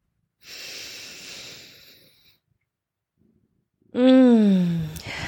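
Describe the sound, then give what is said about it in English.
A deep breath drawn in through the nose or mouth, a soft airy inhale lasting about two seconds, followed after a short silence by a louder voiced breath out. “Today is going to be a great day. Take a deep breath in.”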